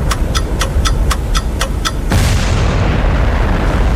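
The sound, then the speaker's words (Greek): A bomb explosion effect from a timed-bomb game: a steady run of sharp, evenly spaced ticks gives way abruptly to a loud, broad blast whose rumble slowly fades. “Beat the bomb παίζουμε. Σταμάτα το χρόνο πριν σκάσει η βόμβα.”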